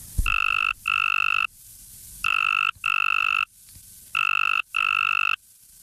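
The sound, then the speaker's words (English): Simulated tree frog calls play together, one attractive and one less attractive: loud, buzzy, pulsed trills at a steady high pitch arrive in three pairs of bursts separated by short gaps. “this is the simulated sound of two different frogs at once, one target and one distractor. So one attractive frog call and one less attractive frog call together sound like”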